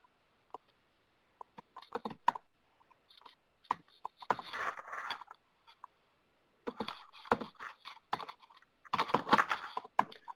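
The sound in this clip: Typing on a computer keyboard as a company name is entered, with irregular bursts of crisp keystroke clicks separated by short pauses and no talk.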